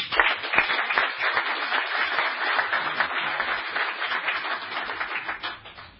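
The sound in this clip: An audience applauds to welcome a speaker. Dense, steady clapping continues at an even level throughout, with no voices standing out.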